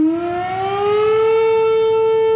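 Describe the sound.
Civil defense sirens howl during a commemoration at Okolchitsa, Bulgaria, honoring Botev. A loud, steady wail rises quickly at the start, then holds a level, sustained pitch with strong overtones.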